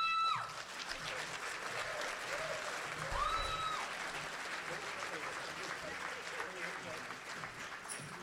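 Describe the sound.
An audience applauds as a musician comes onto the stage, steady, full-bodied clapping from many hands that keeps an even level from start to finish.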